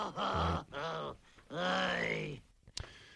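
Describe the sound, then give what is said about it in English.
Three loud, drawn-out groans from a human voice, the last one longest, followed by a brief sharp click. “Can I groan any louder on this?”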